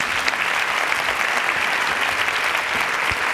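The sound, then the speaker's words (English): Audience applause greets a speaker just introduced on stage: dense, steady clapping from many hands that holds at an even, loud level throughout without a break. “Please put your hands together and welcome Michelle Gielen.”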